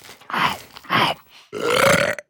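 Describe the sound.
A loud burp after eating a sandwich, heard as three broad, rasping bursts, the last one longest, with no talk.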